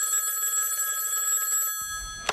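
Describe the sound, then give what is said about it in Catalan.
A telephone rings with a continuous bright electronic trill that stops abruptly. Near the end comes a short, sharp click. “Segons la declaració que Àngel Joan Pere va fer als Mossos, va rebre una trucada de Maurici, el de los Pallaresos”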